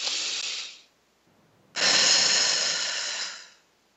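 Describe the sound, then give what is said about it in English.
A deep breath: a breathy inhale of about a second, a short pause, then a longer, strong exhale lasting around two seconds that fades out. “Take a deep breath with a long exhale.”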